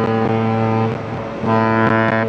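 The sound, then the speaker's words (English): A 664-foot upbound freighter on the St. Clair River sounds its deep horn as a warning to a sailboat, two loud sustained blasts with a brief break between them. “That's the sound of the 664-foot-long Cuyahoga giving a warning signal to a sailboat that was in the path of the upbound freighter in the St. Clair River Sunday.”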